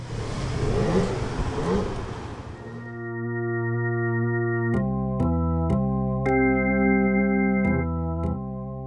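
A car starts up and drives off from the coast near Heraklion. A rough, noisy engine burst gives way to a steady humming drone that steps up and down in pitch several times.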